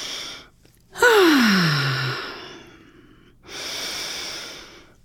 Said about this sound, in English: So take a couple of breaths.